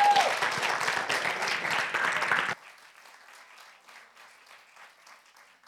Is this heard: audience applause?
yes